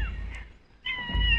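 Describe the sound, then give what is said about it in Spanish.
A cat meows as it comes closer after hearing food, giving a couple of short, high, tonal calls over a steady low rumble, with a quiet gap between them. “Ya les manda a los dinosaurios, ahora se acerca el gato.”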